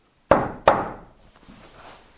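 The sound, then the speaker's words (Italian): Servants knock on a door: two sharp, loud raps in quick succession, each ringing briefly before fading into quiet. “I servi bussavano, niente.”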